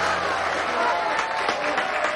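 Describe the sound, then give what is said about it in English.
A crowd applauds at a stage show, a steady, dense wash of clapping that holds an even level for the whole couple of seconds. “The crowd applauds.”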